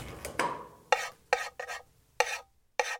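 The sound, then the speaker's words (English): Eggs being stir-fried in oil in a pan, heard as a series of short, quiet scraping strokes against the pan separated by brief gaps of near silence. “Then, heat some oil in a pan and add the eggs to it. Stir fry for 1 minute.”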